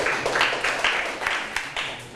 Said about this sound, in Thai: ปรบมือให้ตนเองอีกครั้งเก่งมากๆเลย